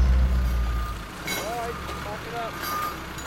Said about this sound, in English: The recycling yard was very busy. Fender watched through the gates as the big trucks loaded up the skips.